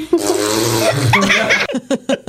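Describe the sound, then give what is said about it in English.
A young girl imitates a fart with a long, buzzing vocal raspberry lasting over a second, followed by a few short voiced syllables. “my mom farts. Oh, yeah. Really? Once she was getting down to get my socks, and then she went like this.”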